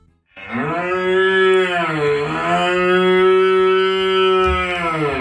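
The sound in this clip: A cow moos once in a long, loud, deep call lasting about five seconds, its pitch dipping briefly early on before holding level, with no voices over it.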